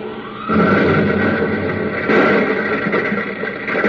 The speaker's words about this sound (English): The braking rockets are set off.